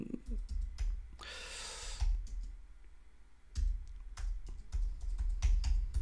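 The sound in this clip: Keystrokes on a computer keyboard as names are typed in, sharp irregular clicks and taps coming in quick uneven bursts with short pauses, moderately quiet overall.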